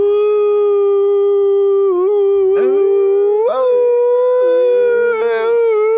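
People imitate a wolf howl, holding a loud, sustained howl throughout with a few sharp upward swoops and wavering bends in pitch.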